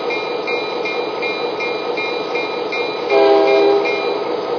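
A local freight train rumbles steadily with faint regular ticking, then a single loud horn blast sounds near the end before the running noise carries on.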